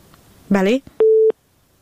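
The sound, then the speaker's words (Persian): A single short, steady beep of a phone line tone sounds after a call drops, following a brief burst of voice. “بله متاسفانه تماس آخونزاده صاحب قطع شد. تماس بعدی را میگیریم.”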